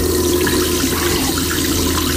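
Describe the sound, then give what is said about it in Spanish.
Water runs steadily from a sink tap in the cramped bathroom of a low-cost airliner, a loud, continuous splashing rush with no voices. “mete las manos debajo del grifo. Cuando retiene agua suficiente, se la lleva a la boca.”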